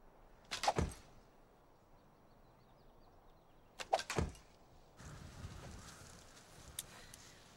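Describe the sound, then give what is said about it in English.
Arrows shot by mounted archers strike a plastered dummy target in two sharp thudding impacts a few seconds apart. Each impact is a quick cluster of hits, with quiet between them. “At close range, the arrows of mobile archers had greater impact. Not only is this target a dummy, he's also plastered.”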